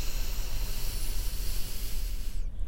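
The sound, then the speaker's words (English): Long inhale through the nose during a guided breathing exercise, a soft, steady hiss of air that cuts off abruptly just before the end. “In through the nose. Holding and exhaling. Inhaling.”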